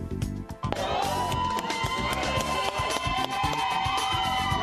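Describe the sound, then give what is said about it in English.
Supporters cheering outside a polling place in Florida as a man walks out after voting. A loud, continuous mass of shouts and whoops, with high tonal calls rising out of the dense crowd noise. “That's the sound of supporters cheering Desmond Meade as he comes out of a polling place after voting for president for the first time in 30 years.”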